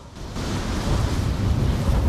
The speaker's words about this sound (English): The wind gets up and whips the powder snow about the rock face.